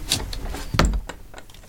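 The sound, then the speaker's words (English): A wardrobe door being closed: brief rustling and scraping, then a heavy low thud midway, followed by a few softer knocks and rattles. “Let's close the door and see if your country's thrown into darkness.”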